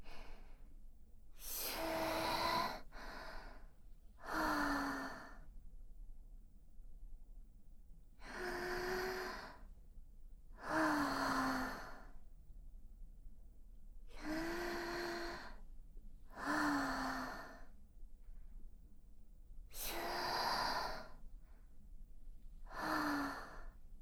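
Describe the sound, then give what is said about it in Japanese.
Deep, labored breathing from a person who is tied up and restrained: a regular series of heavy breaths, each carrying a voiced, sighing or gasping tone, separated by short silent pauses. “深く息を吸ってください。”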